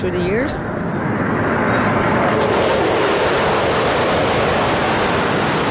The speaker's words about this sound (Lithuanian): Iškilmingų laidotuvių dieną ir naikintuvų skrydžiai ir jautros norvegiškos dainos Oslo katedroje.